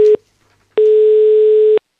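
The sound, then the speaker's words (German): Telephone ringback tone heard while calling a child for a kids' radio phone-in. A steady mid-pitched hum plays alone: the end of one tone, a short silence, then one full tone lasting about a second. “Das nächste Kind ist jetzt dran, das wäre dann der Simon. Müssen wir gleich mal anrufen beim Simon.”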